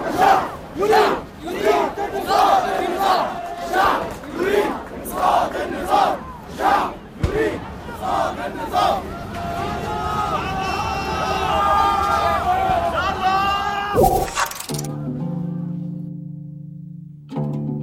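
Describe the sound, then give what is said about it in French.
A large protest crowd on Tahrir Square chants hostile slogans against Mubarak in chorus. Loud rhythmic shouted bursts repeat in a steady beat, then merge into a sustained swelling roar of many voices. “Ils sont aussi les premiers à lancer des chants hostiles à Moubarak que la foule reprend ensuite en chœur.”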